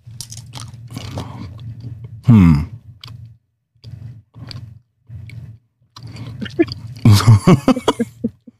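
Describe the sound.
Two people chew several chewy, toffee-like candies at once, producing wet, sticky mouth sounds in uneven bursts over a steady low hum, with a few short vocal noises between.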